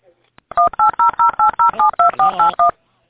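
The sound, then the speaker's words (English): Telephone dialing tones on a phone line: eleven evenly spaced two-pitch keypad beeps in a quick, steady rhythm, loud and clear with no talking over them. “I'm being beeped, or there's somebody trying to dial.”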